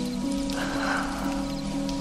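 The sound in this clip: Rain falling at night, an even, unbroken hiss of drops with no pause or voices.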